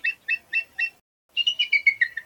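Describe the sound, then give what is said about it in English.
Bald eagle call: four evenly spaced high, thin chirps, a short pause, then a faster run of chirped notes that step slightly lower in pitch, loud and clear. “Here, too, is the majestic bald eagle.”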